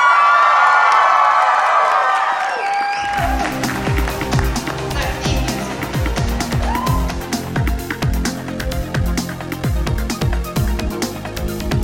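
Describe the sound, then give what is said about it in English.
A live audience at Anime Boston 2007 cheering, with a dense wash of crowd noise and scattered claps that starts abruptly after a quieter opening and carries on loudly to the end. “This episode of the Chibi Project was recorded at Anime Boston 2007 in front of a live audience.”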